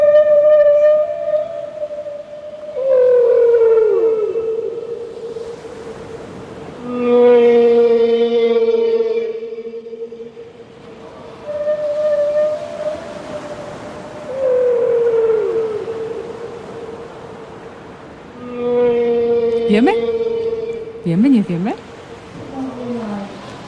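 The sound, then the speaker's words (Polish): Whale vocalizations: several long, moaning tonal calls with rich overtones, some sliding and bending in pitch. They come in separate phrases with short pauses between them, and no voices are heard. “Wieloryb.”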